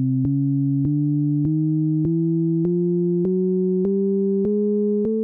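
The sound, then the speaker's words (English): Two pure synthetic tones an octave apart step upward together through a chromatic scale in a Shepard scale demonstration. The steady notes change about every half second, rising evenly and sounding alone at a constant level. “So in our Shepherd scale example, you're hearing a bunch of chromatic scales being played in different octaves stacked on top of each other. So here's two of them alone.”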